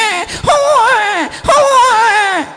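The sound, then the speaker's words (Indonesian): A human voice imitates a newborn baby crying, two drawn-out wavering wails, each rising then falling and trailing off, loud and clear with a brief breath between. “Suarane napa niku, Bu? Bayi jare.”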